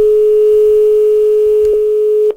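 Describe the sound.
A telephone dial tone plays while calling an IT service desk for a password reset: a loud, steady, unbroken tone with two brief clicks near the end before it cuts off.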